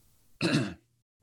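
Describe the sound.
A single short, rough throat clearing comes after vomit rose in the throat. It is loud and brief, with near silence around it.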